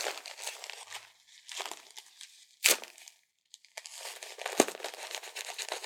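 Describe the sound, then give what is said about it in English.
Tape being torn and applied, heard as many crinkling, rustling bursts broken by a couple of sharp, quick rips and brief pauses, with no talking. “Just gotta tape you up.”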